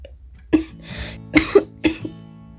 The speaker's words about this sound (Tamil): நாளைக்கு இரும முடியலம்மா நெஞ்சு வலிக்குது